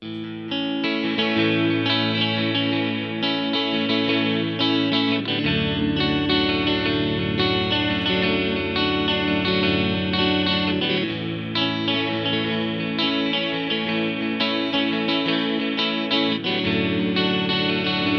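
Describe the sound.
Electric guitar played through an ensemble effect that blends two guitar voicings into a shimmering, chorus-like jangle. Chords ring continuously and richly with a wobbling, doubled tone, sustained at a steady loudness for about eighteen seconds.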